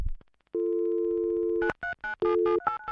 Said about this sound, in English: He flipped open his mobile and sent a text message, and then he dialed a number.